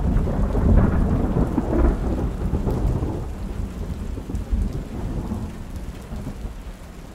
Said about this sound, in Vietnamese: vẫn có thể dễ dàng nghe thấy tiếng mưa lộp cộp bên ô cửa sổ